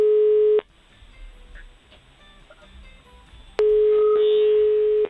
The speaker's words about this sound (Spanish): A ver, estoy marcando, por eso no te digo nada.